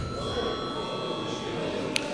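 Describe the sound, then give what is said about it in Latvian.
Electric bell in a parliamentary chamber, rung again to call a repeat vote after a tied result. A steady, continuous ringing holds at an even level for the whole clip. “Lūdzu vēlreiz zvanu.”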